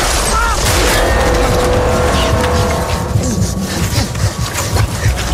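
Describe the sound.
A car engine revs loudly as the car starts and pulls away, its strained roar steady throughout, with voices speaking over it.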